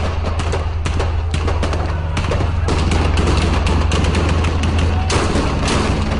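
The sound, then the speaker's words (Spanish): Gunfire from snipers on rooftop terraces shooting at a car carrying a president: many sharp cracks in rapid, irregular bursts over a loud, continuous rumble and a steady low hum. “Francotiradores, perfectamente apostados en las terrazas, hicieron su macabro trabajo. Dispararon sin piedad al vehículo donde sacaban al presidente.”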